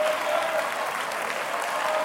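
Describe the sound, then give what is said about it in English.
A church audience clapping their hands during worship: dense, continuous applause of many hands, steady in loudness throughout, with no talking. “Clap your hands even if you don't feel it.”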